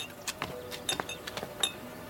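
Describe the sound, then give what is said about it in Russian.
Light glassy clinks of a vodka bottle and a drinking glass rattling on a serving tray carried by a butler, many quiet, irregular taps spread over two seconds, with no voices. “Дворецкий подносит на разносе отцу Катерины водку и стакан.”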